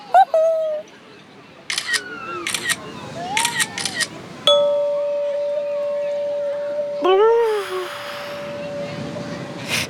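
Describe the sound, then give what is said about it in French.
A camera taking a photo: a few sharp, bright shutter-like clicks in quick succession, set among whistling synthetic tones and a long steady beep-like tone. “Je vais te prendre en photo.”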